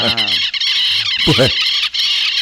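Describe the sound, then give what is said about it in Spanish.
Several birds calling together in a noisy chorus: overlapping squawking, chirping calls that run continuously, with harmonic, fairly high-pitched notes and a few lower, wavering cries mixed in. “pues se armó la goma de los pájaros. Es fiesta eso, porque hay más de uno.”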